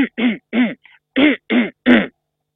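Someone clears their throat over and over, acting out the urge to shift a feeling of something stuck there. The quick series of short, gruff rasps includes five strong ones and a fainter one in between.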